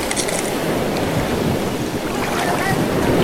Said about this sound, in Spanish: Estamos remando.